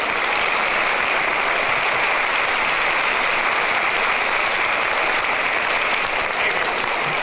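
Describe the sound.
An audience applauds to welcome a performer onstage, with dense, even clapping that stays loud and unbroken from start to finish.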